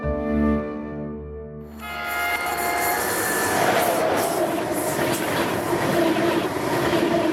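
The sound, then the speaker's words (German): An ICE high-speed train passes as a loud, steady rush of rail noise, with squealing wheels and rumbling carriages, that swells after a quieter opening and holds to the end. “Mit dem ICE.”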